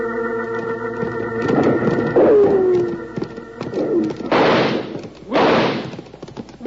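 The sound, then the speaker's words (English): Gunfire in a Western shootout during a mounted chase, with a descending ricochet whine early on and two loud, sharp shots later. “But the varmints keep shooting at us.”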